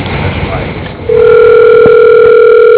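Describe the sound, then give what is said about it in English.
A telephone dial tone comes on while a call is being dialled, a loud steady hum that starts after a stretch of talk and holds without a break to the end, with a few faint clicks over it. “Okay, dialing.”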